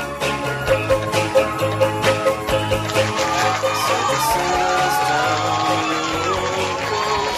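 A studio audience cheers, whoops and shouts at a comedy show, with a few rhythmic bursts at first that settle into a loud, continuous crowd roar.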